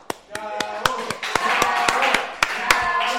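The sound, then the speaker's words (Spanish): Clapping on a Spanish-language comedy talk show, heard as a steady run of distinct, separate claps rather than a dense ovation, with talking alongside. “Apláudeme, Facundo, porque esta gente es muy...”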